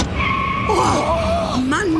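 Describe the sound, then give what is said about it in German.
Tyres squeal during a car chase: a loud, sustained screech with wavering, shifting tones over a constant rush of engine and road noise. No distinct crash or breaking glass stands out. “Hinter uns sieht es aus wie in einem amerikanischen Actionfilm. Quietschende Reifen, Blechschäden, gebrochenes Glas.”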